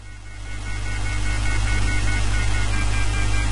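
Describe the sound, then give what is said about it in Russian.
Steady engine drone of a Cadillac car driving in a video game. A low, continuous rumble swells during the first half second, then holds at an even level with no talk. “Так, едет Кэдди внезапно.”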